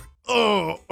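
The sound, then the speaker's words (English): A voice imitates a groaning stomach after eating at a chain pizza shop: one drawn-out, harmonic moan lasting about half a second, with a second groan starting at the end. “Here's the sound of my stomach after eating at a chain pizza shop.”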